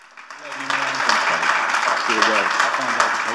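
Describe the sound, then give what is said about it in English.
A church audience applauding to welcome a guest pastor to the platform, a dense, steady roar of clapping that swells and holds while a voice carries on over it. “Will you welcome Pastor Jason Hubbard, everybody, to the platform? Let him know how much you love him. Throw your hands together.”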